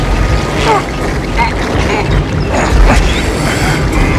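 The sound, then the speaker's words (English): Mechanical grinding and creaking of a machine's gears as a massive water-driven paddle wheel cranks them to life, fed by water pouring down a chute; a loud, dense, continuous churn with intermittent creaks throughout. “A floodgate opens, causing water to pour down a chute to a massive paddle wheel which cranks the gears on the machine to life.”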